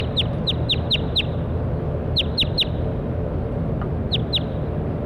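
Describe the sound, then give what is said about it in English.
Bird song is recorded: about ten short, high chirps, each sweeping downward, arrive in three quick clusters. They sound bright and clear over a steady low background hum. “That was bird 7-1.”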